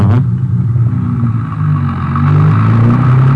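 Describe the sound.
A car driving off on the road toward El Paso after picking up a hitchhiker: a continuous low engine rumble with clattering texture that swells louder as the vehicle accelerates away.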